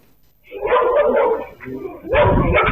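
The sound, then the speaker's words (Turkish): Stray dogs roaming in a pack in Istanbul's Sarıyer district bark and yip in a few loud, overlapping bursts, with a brief lull between two busy stretches. “İstanbul Sarıyer'de sürü halinde dolaşan köpekler vatandaşlara saldırıyor.”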